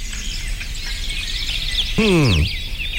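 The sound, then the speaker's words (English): Birdsong played on cue as a sound effect: high chirps and trills run throughout, and a louder, descending squawk-like call comes near the end. “Okay, let's try this. Cue the birds.”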